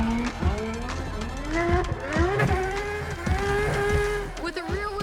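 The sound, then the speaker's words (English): A McLaren drift car sliding sideways around a track, its engine wailing through repeated rising revs that drop back at each shift, loud and continuous throughout. “this McLaren is a master at sliding with complete control.”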